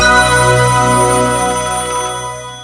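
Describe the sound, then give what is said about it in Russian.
Telephone ringtone sounding for a call into a radio studio: a loud, steady electronic tone rich in harmonics, holding for nearly three seconds with no speech and easing slightly toward the end. “Звонок эксперту на радиомарафон.”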